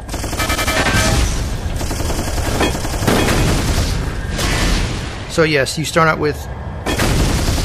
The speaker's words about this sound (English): Machine gun. Cleans out the area.